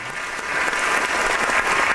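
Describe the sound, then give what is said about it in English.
A round of applause marking a debut, with many hands clapping in a dense, steady patter that stays fairly loud and even for about two seconds, with no voices. “Can we get a round of applause for Sammy today?”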